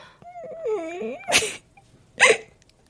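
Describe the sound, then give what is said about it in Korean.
A woman cries in a high, wavering whimper that rises and falls, followed by two sharp, breathy sniffs. “또 울어?”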